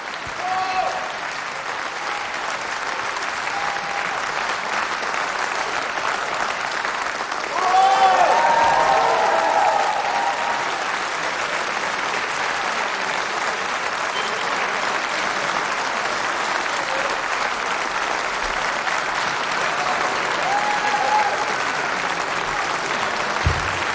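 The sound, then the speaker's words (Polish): An audience at a live event applauds in a steady, dense crackle of clapping that lasts throughout and swells briefly near the middle, with voices heard at times over it. “Brawa dla nich.”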